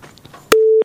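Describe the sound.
A phone line busy tone follows a disconnected call: after brief faint talk, a sharp click gives way to a single loud, steady mid-pitched beep that holds briefly and then stops.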